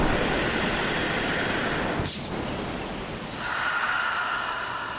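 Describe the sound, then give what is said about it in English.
Slow, deep breathing in and out gives long, airy rushes of breath that swell and fade, broken by a short, sharp hiss midway, with no talking. “In and out. Every breath makes you feel closer to nature.”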